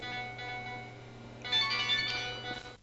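A phone ringtone for an incoming call sounds during a religious lesson's question session: a steady tonal melody with a brighter, louder passage in the middle and no talk over it.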